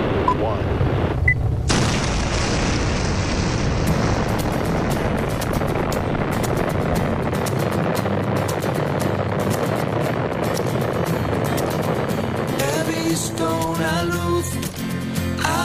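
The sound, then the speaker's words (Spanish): A spaceship taking off after a countdown: a loud, roaring launch rumble that starts abruptly and holds steady and dense all the way through. “¿Despegamos? Pues ya lo creo que despegamos. 5, 4, 3, 2.”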